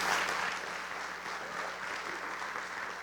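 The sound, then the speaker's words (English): Applause from an audience welcoming a speaker as he comes on stage: steady, dense clapping lasting the whole stretch, slightly stronger at the start, with no voices over it. “So would you just give Len a hand as he comes on stage, and we welcome him this morning.”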